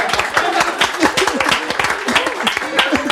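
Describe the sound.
Audience applause on a Mexican comedy show: scattered, uneven clapping under talk and laughter from the people on stage.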